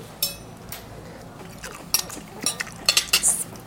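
Faint clinks and scrapes of a big fork mixing chopped bacon, pear and potato pieces on a plate for a traditional mountain dish, a few scattered metallic taps with short clusters near the end, and no talk.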